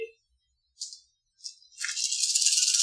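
Dice rattle as they are rolled for a tabletop game, a large handful of many colors: two short clicks, then a bright, sustained clattering rattle that runs to the end.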